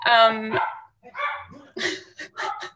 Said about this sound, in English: you can hear my pack of dogs out there barking their faces off